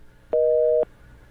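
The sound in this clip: Telephone busy signal on a call-in line after a caller drops: a single steady two-note tone lasting about half a second, heard alone against low background hiss.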